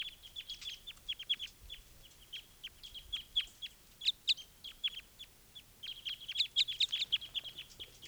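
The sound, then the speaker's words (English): A wild bird calls near pine cones, giving call type 5 as a rapid series of high, thin chirps in irregular bursts, fairly faint and with no talk over it. “One of the wild birds is looking down at the pine cones, and this is bird 395 calling. Type 5.”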